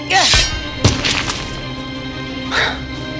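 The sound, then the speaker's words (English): A sword blade strikes a magic rock at the base of a throne, giving a sharp cracking impact soon after a brief voice, followed by a few smaller breaking knocks that fade into quiet. “Cutter swings his blade. All in the throne room gasp. thinking he will behead the Troll King in a single blow. But no. He aims the blade at the magic rock at the base of the throne.”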